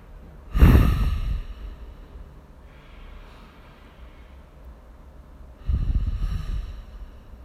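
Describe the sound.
Deep breathing during a guided relaxation exercise: two loud, heavy breaths, one at the start and one near the end, with softer airy breath noise between them. No talking is heard.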